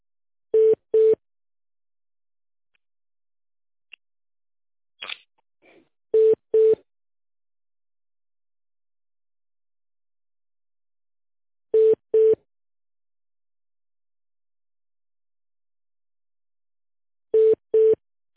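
Telephone line tone plays while a call is transferred to a company's tender department: four evenly spaced pairs of short low beeps, with near-silence between the pairs.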